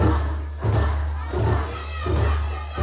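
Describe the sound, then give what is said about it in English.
An enthusiastic crowd of Bafana Bafana supporters in green and gold sings and cheers at the team's farewell event in Rosebank: a loud, sustained mass of voices that surges in a few rhythmic swells. “A joyful atmosphere welcomed the Bafana Bafana squad, and an enthusiastic crowd dressed in predominantly green and gold sang,”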